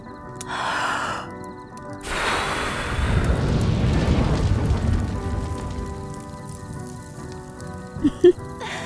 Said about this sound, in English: But that ain't something a bit of extra dragon fire in the fire pit can't fix.